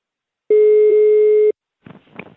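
A telephone line tone sounds while a call is being placed: one steady, even, mid-pitched tone lasting about a second. A short, quieter burst of sound follows after a pause.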